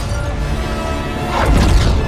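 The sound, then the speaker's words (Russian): Robots in a film are smashed and torn apart in a dense, noisy crash of impacts, with a louder swelling burst in the second half. “От взмаха ее руки роботы разлетаются, разрываются надвое.”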